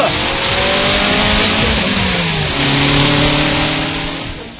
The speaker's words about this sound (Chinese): 我揸住呢架系保时捷 Boxer S， 马力有成280匹